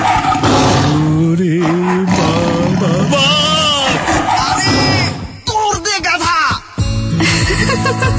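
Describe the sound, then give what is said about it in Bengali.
A tiger roaring: loud, drawn-out roars with wavering pitch and yelling voices mixed over them, continuous for most of the stretch. “গিয়ে দেখ বাঘটা কোথায় আর তুই আমি পেছনে গিয়ে দেখে আসি বাঘটা কোথা থেকে এলো”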